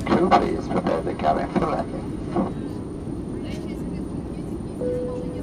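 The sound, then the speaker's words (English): Airplane cabin drone during the approach to landing, a steady low rumble with voices talking over it in the first half, then the even engine hum continues alone with a faint tone near the end. “We will shortly be landing. Oh, yes. Baggage and all personal belongings, including laptops, are safely stowed. Finally, coming to land.”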